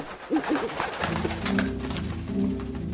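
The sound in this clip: Homing pigeons cooing: a few soft, low, throaty coos repeated at an unhurried pace over a faint steady background hiss.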